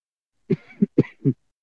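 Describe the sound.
A dry throat is cleared in four short, rough, low bursts, the third and fourth close together, with silence before and after.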